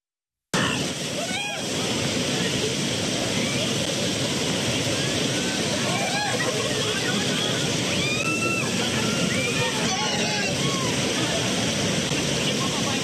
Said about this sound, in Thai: ช่วงนี้น้ำในคลองสองแพรกมีปริมาณมากนะครับจึงได้รับความนิยมในกิจกรรมท่องเที่ยวเชิงประชนภัยครับ